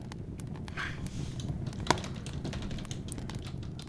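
Soft typing on a computer keyboard: faint, irregular key clicks with one sharper tap partway through, and no talking.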